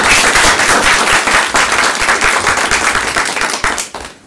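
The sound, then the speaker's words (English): Audience applause welcomes a speaker at an LSE event: dense, sustained clapping from many hands, loud and steady throughout before tapering off at the very end. “So if you could all put your hands together and put a warm LSE welcome.”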